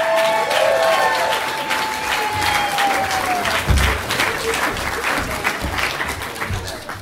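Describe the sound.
Audience applause welcoming a member of a sketch and improv group onto the stage at a live show, a loud, sustained wash of clapping that holds steady throughout.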